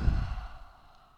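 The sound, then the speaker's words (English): A single deep breath exhaled through the open mouth during a yoga practice: a soft, breathy sigh that starts fullest and tapers off steadily into quiet, with no talking over it. “One breath in. You'll open your mouth and let it out.”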